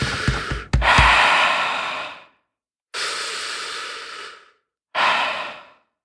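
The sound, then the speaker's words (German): Deep breathing, with three long, steady breaths separated by short pauses, each a soft airy rush that swells and then tapers off; no other sounds and no talk. “Jetzt atme, wie ich atme.”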